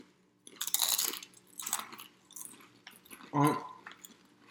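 Crunching of raspberry-flavoured potato chips from a holiday snack box, with a few separate bursts of biting and chewing between quiet gaps and a short vocal sound near the end.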